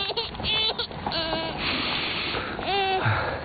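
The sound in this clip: A girl crying: wavering, tearful sobs and whimpering wails come in a few uneven bursts over a constant background hiss.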